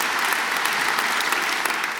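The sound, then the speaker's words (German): An audience claps together in the opera house at Offenbachplatz in Cologne, a thick, continuous wash of many hands that stays loud and even from start to finish. “Jetzt können wir auch noch mal gemeinsam klatschen.”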